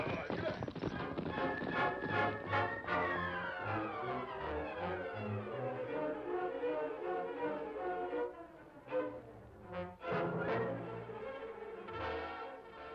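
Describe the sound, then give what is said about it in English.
Horses ridden by horsemen clop along in a quick, continuous run of hoofbeats that carries on under loud music. “You see many horsemen, Don Jose? See, they ride this way.”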